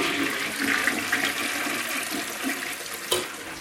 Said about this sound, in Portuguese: Deixa eu puxar a descarga também, deixa.